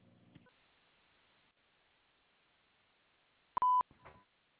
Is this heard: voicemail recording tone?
yes